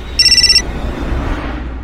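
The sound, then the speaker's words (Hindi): A mobile phone rings inside a car that has stalled mid-road: a short burst of rapid, high, bright warbling pulses, then the tone stops and a steady low rumbling noise carries on alone. “और साथ ही शुरू हुआ निकिता के phone का बजना, जिस पे phone Ravish का आ रहा था।”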